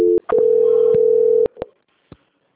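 A telephone call-transfer tone sounds on a call from a bank's authorized correspondent company. A brief low tone gives way, after a short gap, to a steady held tone lasting over a second, followed by a few soft clicks, then quiet.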